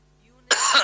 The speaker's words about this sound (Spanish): Perdón, me tomé un mate y me atraganté. ¿Viste cuando te traiciona la yerbita que te pasa por la garganta?